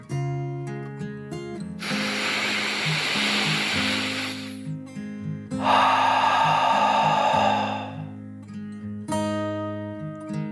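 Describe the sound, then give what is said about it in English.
A deep breath taken in and then let out during a calming bedtime story: two long, breathy rushes of about two seconds each, the second fuller, over soft, sustained melodic background music. “Taking a deep dragon breath, in and out,”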